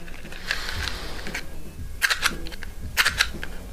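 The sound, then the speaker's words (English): A matchbox handled and rattled, giving many quick, dry clicks and scrapes in small clusters over a low, steady background hum, fairly faint throughout. “That sounds like a matchbox.”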